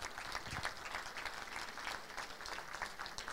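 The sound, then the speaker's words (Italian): Soft applause at a neighbourhood assembly held in a cinema, for the cinema's owner. Quiet, even clapping continues steadily from start to finish. “gli vorrei fare un applauso”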